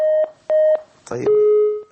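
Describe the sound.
Electronic tones from a phone line as a call drops: two short, steady beeps, then a brief burst of voice-like sound and a longer beep at a lower pitch.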